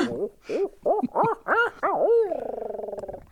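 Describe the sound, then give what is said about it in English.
An owl hoots in a series of rising-and-falling calls that build in loudness, ending in a long, wavering, rapidly pulsing trailing note. No voices are heard. “get that damn owl out of my basement.”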